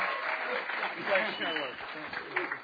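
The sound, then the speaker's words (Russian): A church audience applauds to welcome the final minister: a dense, steady wash of clapping with a voice talking over it. “И давайте мы поприветствуем бурными аплодисментами последнее служение.”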